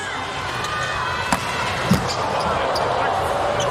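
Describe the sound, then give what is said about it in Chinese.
A volleyball serve is struck in a match between teams that include Slovenia. A couple of brief sharp impacts stand out over steady crowd noise, with a voice talking. “周达轩的发球，”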